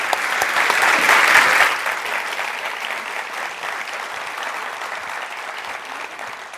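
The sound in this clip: An audience at the Los Angeles Public Library applauds to welcome speakers. The clapping is dense and steady, swells at first, then eases to a softer, even patter that continues to the end.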